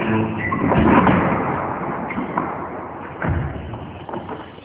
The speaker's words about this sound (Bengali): শ্যামা বারান্দার দরজাটা বন্ধ করে দিল।